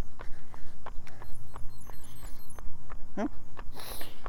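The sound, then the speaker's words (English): Footsteps of someone walking: many steady, evenly spaced soft steps that keep a regular rhythm for the whole stretch. “There's my walk again.”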